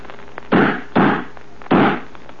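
Gunshots with bullets bouncing off a shell: three sharp, loud bursts spaced about half a second apart, each with a quick attack and a short fading tail.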